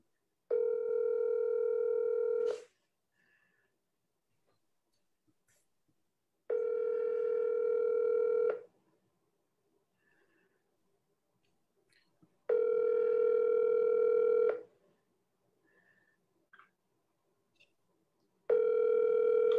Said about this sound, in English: I really want this person to pick up. I really want them to pick up.